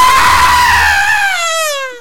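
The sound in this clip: A loud, sustained playacted scream holds a high pitch, then slides downward and fades at the end.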